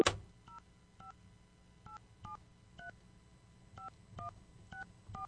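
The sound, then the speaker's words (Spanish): Telephone keypad tones beep as a number is dialed, about ten short two-tone presses in an uneven rhythm, faint and clear over low background hum. “Estamos marcando, a ver si nos responde.”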